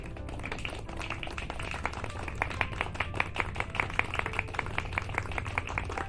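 Applause from an audience welcoming a reverend who is to bless a vessel at a ceremony: a dense, even patter of many claps continues unbroken from start to finish, with no voices.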